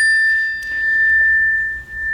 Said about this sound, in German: Es läutet an der Tür.